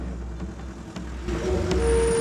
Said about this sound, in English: Chris and Ray are in a small green car. The cab drives under a railway arch, with a coupe a short distance behind.